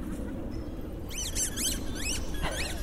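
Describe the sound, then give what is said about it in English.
A squeaky dog ball squeaks on an open grassy field where dogs are out playing. A few quick, high, chirping squeaks come close together, faint under a steady rush of outdoor background noise. “That ball's got a squeak in it.”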